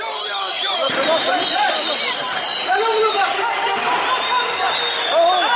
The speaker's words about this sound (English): The sound there of thousands of Kurds taking to the streets this week in the city of Diyarbakir